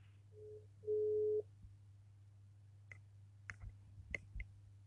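A telephone call tone signaling an unreachable number: a short low beep, then a longer louder one, followed by a few faint clicks over a steady low hum.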